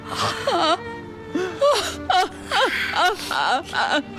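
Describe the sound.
A woman, a mother grieving over her son's lung cancer diagnosis, cries and wails in repeated sobbing bursts with quivering, wavering pitch, partly word-like, loud throughout.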